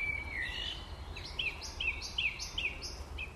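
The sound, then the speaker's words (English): Songbirds sing in Cambridge: a short warbling phrase, then a run of brief, high chirps repeating at a steady pace over a constant low background rumble. “Here in Cambridge, though, I'm still likely listening to lonely bachelors looking for a mate to start a nest with.”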